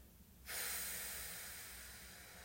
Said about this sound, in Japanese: 最後吸ってたっぷり深く笑顔で吸って吐きます